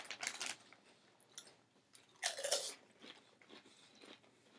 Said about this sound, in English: Coming off of the kettle cooked chips, it's a little disappointing to bite into the regular chip